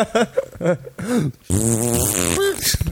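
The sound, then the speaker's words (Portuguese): A mouth-made fart imitation during a telephone call: a voice blows a loud, buzzy raspberry that lasts about a second, with short vocal sounds before it. “Eu faço um som de peido com a boca”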